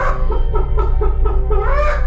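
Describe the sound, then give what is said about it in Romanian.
A hen clucks in a quick run of short, loud, repeated clucks over a low steady hum. “Baba avea o găină”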